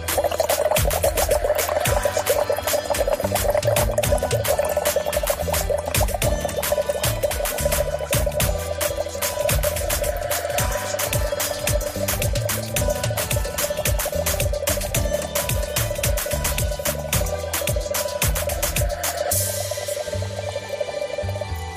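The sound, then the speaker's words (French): Bubbles blown gently through a small straw into a half-full glass of water: a loud, continuous, regular bubbling gurgle with a steady tonal hum underneath, easing off slightly near the end. “un verre d'eau en moitié plein et l'autre en moitié vide, de prendre une paille assez petite et de souffler légèrement à faire des bulles, mais toujours régulières dans le récipient.”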